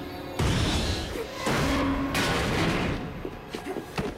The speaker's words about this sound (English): A fractured pipe explodes and falls to the ground.